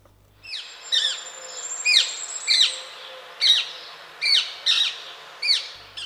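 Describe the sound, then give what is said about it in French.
Harsh, high screeching calls of a rose-ringed parakeet come in a series of short bursts with down-sweeping pitch, spaced unevenly over several seconds and fairly loud, with no voices. “La perruche à collier.”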